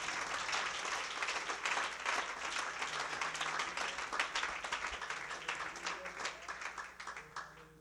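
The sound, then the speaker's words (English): A church audience claps their hands in dense, sustained applause, a steady wash of many hands that thins slightly toward the end. “If you love the word, would you clap your hands in this place?”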